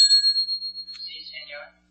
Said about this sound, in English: Ring the desk bell, please.